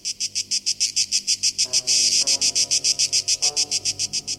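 A male cicada singing: a loud, high, rapidly pulsing buzz that repeats in a steady, even rhythm of many short bursts throughout, with no voices present.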